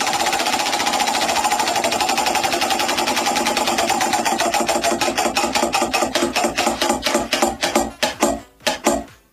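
A prize wheel spun by hand clicks in a rapid, buzzing stream that gradually slows into separate, louder ticks before it stops.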